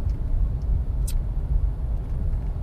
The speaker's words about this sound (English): I'm on my way to Tennessee. I'm driving my mom's car with her cat Dylan.